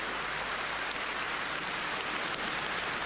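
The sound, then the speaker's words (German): Rain falls as a steady, dense, even hiss of drops, continuous and unchanging throughout, with no voices. “Hörst du das? Regen.”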